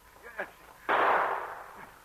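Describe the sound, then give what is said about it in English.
A single gunshot near a mine opening cracks out sharply and trails off in a broad, booming decay over about a second. “And then Pierre heard shots. He ran as fast as he could toward the sound, and again he heard one as he approached the opening into Steve's mine.”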